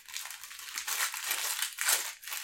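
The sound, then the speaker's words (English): A fortune cookie is cracked open with crisp, brittle crunching and crinkling, a few quiet bursts of snapping and rustling close together. “I've got a fortune cookie. I'm going to see what the fortune cookie says this Let's Watch is going to be like. Okay. Open her up. Let her rip.”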